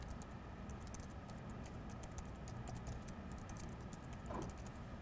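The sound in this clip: Typing on a computer keyboard: a faint, quick patter of many key clicks in an uneven rhythm over a low background hum.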